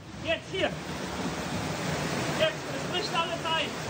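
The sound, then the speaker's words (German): Flood water rushes with full force through Dernau, a village on the Ahr river: a dense, steady roar throughout, with a few brief voice-like cries rising above it. “Die Flut kommt mit voller Wucht.”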